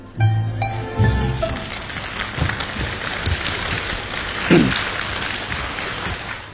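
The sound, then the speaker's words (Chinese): Audience applause at a xiangsheng crosstalk comedy performance, a broad, steady patter of clapping that swells after a few brief opening sounds and then continues at a moderate level. “从大家的掌声当中看来，对他们这种创新还是比较认可。”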